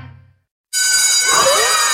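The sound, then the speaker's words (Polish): A school bell rings for the start of a lesson: after a brief silence, a bright, continuous electric ring sounds steadily at full loudness to the end. “Wszystko, co dobre, zaczyna się od dzwonka na lekcję.”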